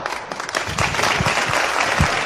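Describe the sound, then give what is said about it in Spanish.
Sustained crowd applause at a popular procession of a religious brotherhood in Huelva, following cheers of praise. The dense, loud clapping stays steady throughout without a break. “Y los aplausos, qué momento.”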